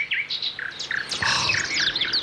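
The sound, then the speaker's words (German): Birds chirping outside in the morning: many bright, high tweets and short whistled calls overlap in a lively, continuous chorus with no pause. “Man wird ganz sachte geweckt von diesem herrlichen Vogelgezwitscher draußen.”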